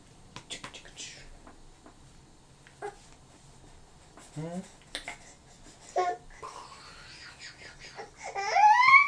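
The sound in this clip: A baby fusses and babbles in short, scattered, high-pitched vocal bursts with gaps between them. The sounds are faint at first and grow louder and more insistent toward the end.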